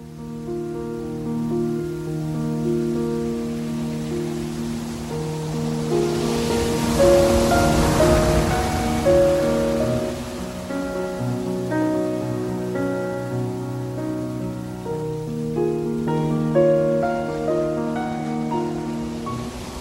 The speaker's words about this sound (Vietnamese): Gió nổi, sóng biển ngầu bọt lên.